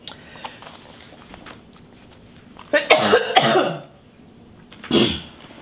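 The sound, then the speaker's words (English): Harsh coughing from a person choking on coffee that went down the wrong way: a loud cluster of hard, rasping coughs, a short pause, then one more strong coughing burst, with quieter throat sounds before them. “I'm choking here, so give me just 1 minute. Oh, excuse me.”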